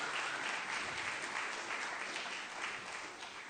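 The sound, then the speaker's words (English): A gathering at a church meeting claps to welcome visiting guests. The applause is dense and continuous, holding an even level before easing slightly at the very end. “Let's give them a warm welcome. Let's give them a clap.”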